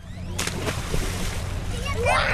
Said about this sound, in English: Along the banks of the Rio Grande, a small group of kids splash in the murky water. They wear shorts with no shirts, and they leap from a makeshift dock into the river.